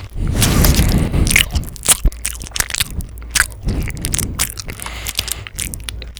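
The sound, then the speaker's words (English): Loud crunching, biting and wet chewing mouth noises from someone eating a food they find gross, with many rapid crunches and scrapes in an irregular rhythm and no talking. “Do not make mouth noises.”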